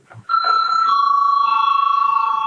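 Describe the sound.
A bell rings to call a parliamentary vote, an electronic chiming tone that starts after a brief faint rustle and then holds steady and loud to the end, with a slight shimmering pulse in its sustained ring.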